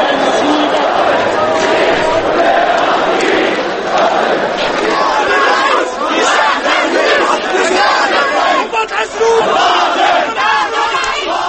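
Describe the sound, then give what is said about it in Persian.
Thousands of Egyptian protesters in Tahrir Square, Cairo, create a loud, continuous roar of shouting and chanting voices that stays dense and unbroken throughout. “صدایی که میشنوید حال و هوای میدان تحریریه قاهره است، جایی که از صبح امروز هزاران معترض مصری اونجا جمع شدن”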